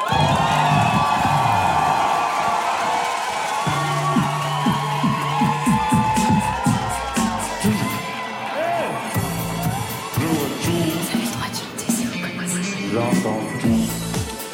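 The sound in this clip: Live audience cheering, whooping and shouting at a public evening radio music show with French artists. The sound is loud and sustained from start to end, a dense crowd roar with scattered shouts.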